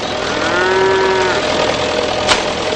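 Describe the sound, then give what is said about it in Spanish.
One low, drawn-out moo rises from a herd of bulls being fed straw bales from a tractor trailer, over a steady engine idle. A brief sharp knock sounds near the end. “Subido al remolque de un tractor, Kirce lanza balas de paja al rebaño de toros.”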